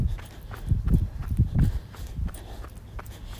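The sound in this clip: Footsteps climb stairs inside a fort, a series of heavy, dull thuds in an uneven walking rhythm, loudest in the middle and lighter toward the end.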